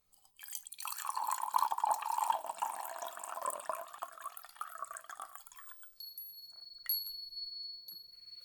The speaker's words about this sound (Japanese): そうしたら、こちらのお茶碗へお湯を注いで、と。